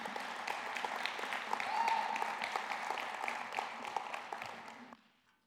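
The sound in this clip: An audience applauds to welcome a speaker with dense, steady clapping that holds for about five seconds and then quickly dies away.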